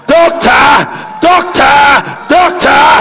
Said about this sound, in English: Ladies and gentlemen, with a standing ovation, let's welcome the incoming president,